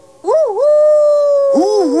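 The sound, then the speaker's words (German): A human voice imitates a wolf howl: a wavering opening swoop settles into a long, loud, sustained tone, and a second wavering howl follows near the end. “Heul doch ein bisschen mit.”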